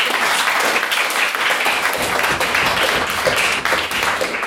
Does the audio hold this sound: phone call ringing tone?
no

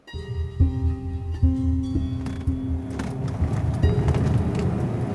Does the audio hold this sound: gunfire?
no

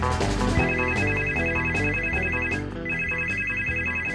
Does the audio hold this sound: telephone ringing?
yes

